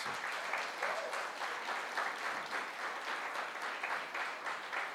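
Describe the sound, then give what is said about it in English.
Applause from a church audience welcoming a pastor: a steady, even wash of clapping holds at moderate volume from start to finish without a break. “This is Pastor Kyle Driver. Give him a hand.”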